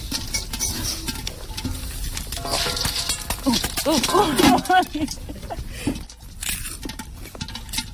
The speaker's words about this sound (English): Wow, popcorn on a real fire. I think you should just take the lid off. No, guys, they all gonna pop off.